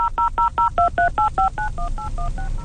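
Touch-tone keypad beeps as a cellphone number is dialed, an even, rapid run of about a dozen short dual-pitch tones, clear and loud, with no talk.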